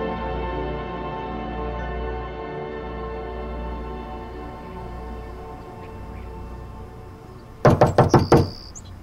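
Police knock hard on a door: a rapid burst of several loud raps near the end, after a stretch of low, steady hum.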